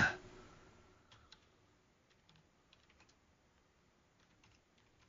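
Faint tapping on a computer keyboard: sparse, scattered light clicks spread out over a quiet stretch, with a slightly louder tap at the start.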